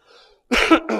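A man battling allergies coughs during a church service: a faint breathy sound first, then a loud, harsh cough burst followed by a second, shorter one.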